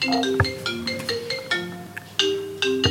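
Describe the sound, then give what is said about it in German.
A phone ringtone sounds for an incoming call. It plays a melodic run of electronic tones that step up and down in pitch, with distinct notes at a moderate level. “Wieder werden wir beim Packen von einem Anruf unterbrochen.”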